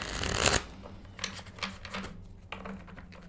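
Tarot cards being shuffled during a reading: a loud, dense riffle at the start, then lighter, irregular shuffling taps and slides that continue faintly.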